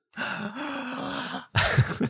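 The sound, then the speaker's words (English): A sharp breath drawn in comes out as a long, voiced, groan-like rasp at a steady pitch. A brief pause follows, then a shorter, rougher and louder burst of breath. “That was great. How'd you do that? I just breathed in.”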